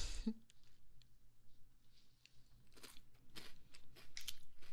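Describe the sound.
Crunching of a seaweed-flavoured snack being chewed: a few soft, quiet crunches that come more often toward the end, with no talk.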